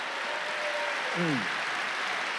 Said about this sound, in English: Clap your hands and praise God if you believe it.